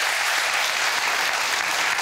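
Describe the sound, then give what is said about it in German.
Audience applause for a game show winner, dense, steady clapping that stays loud and even throughout, with no voices standing out above it. “jetzt gibt es noch mal einen Applaus für die Gewinnerin”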